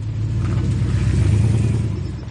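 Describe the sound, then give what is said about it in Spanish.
A car engine rumbles as the car backs out of a residential yard onto the road, a loud, steady low drone that holds even throughout. “El coche da marcha atrás.”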